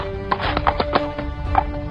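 A stranger's horse stops abruptly with hooves clopping, a few irregular hoof strikes over a faint, steady background tone.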